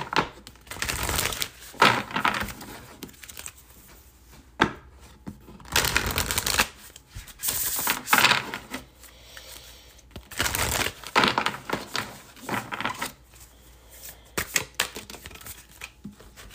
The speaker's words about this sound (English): let's pull an affirmation card to send us on our way here.